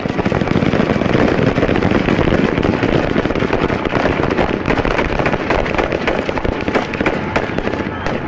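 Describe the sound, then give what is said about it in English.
Gunfire as police fire live ammunition into a group of miners: a dense, continuous crackle of rapid shots, loud and unbroken for the whole clip, with too many reports to count. “A shot is fired, then chaos. The miners start running toward the police. The police fire live ammunition into the group.”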